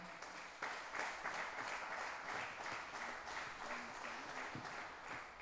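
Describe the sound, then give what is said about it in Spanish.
Audience applause at a pluricultural gathering of indigenous language communities in Salta: loud, dense clapping from many hands, sustained steadily for the whole stretch with no voices rising above it. “Así que un aplauso grande para el tío Julián.”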